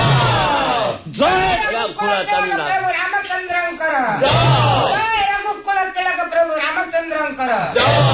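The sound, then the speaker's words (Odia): Court bards chant victory cheers hailing Lord Rama in a royal assembly. Loud, raised voices ring out in repeated chanted bursts, with a crowd-like swell behind the phrases. “ସର୍ବପ୍ରଥମେ ଭାଟମାନଙ୍କର ଜୟଗାନ ହେଲା, ଜୟ ରଘୁକୁଳ ତିଳକ ପ୍ରଭୁ ରାମଚନ୍ଦ୍ରଙ୍କର।”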